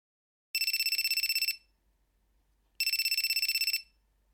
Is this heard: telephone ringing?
yes